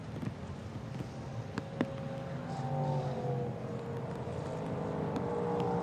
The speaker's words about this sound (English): Hearing the engines fire up, and as they head out